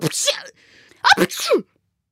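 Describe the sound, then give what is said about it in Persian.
A voice acts out a gruff character's sneeze in a storybook reading. A breathy, drawn-in build-up leads into a sharp explosive burst, which ends in a falling nasal tail. “و دوباره عطسه کرد.”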